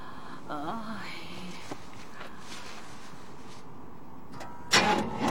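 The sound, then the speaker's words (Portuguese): A car engine is being started, and a loud surge of engine noise breaks out near the end after a quieter stretch. Brief talk is heard early on. “Acha que consegue ligar o carro? Tudo bem, vamos tentar.”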